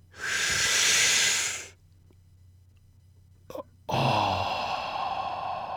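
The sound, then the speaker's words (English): Two long, deep breaths are taken slowly. Each is a loud airy rush lasting more than a second, separated by a quiet pause with one faint click. “But take deep breaths. Here, I'm going to do it. Do this with me now.”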